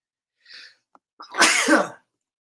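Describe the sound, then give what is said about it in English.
One forceful human sneeze, with a brief breathy intake just before, during a sneezing fit; it is a short, loud burst heard alone. “And I just got hit with a sneezing frenzy of three sneezes in just a couple of moments.”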